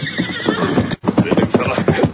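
A horse whinnies: Silver, the Lone Ranger's horse, gives a loud, shrill, quavering neigh that breaks off abruptly around the middle and then resumes in a second stretch of equal strength.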